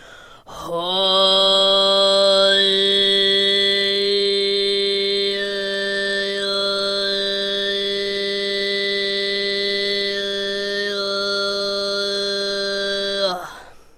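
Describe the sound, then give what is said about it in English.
Throat singing: a steady low drone is held for about twelve seconds while a bright, whistling overtone above it shifts in pitch and forms a thin melody, loud and alone. “Tube and throat singing sounds like this.”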